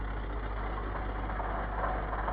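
A bus engine idles at a request stop, giving a steady, fairly faint low rumble that stays even and unbroken throughout.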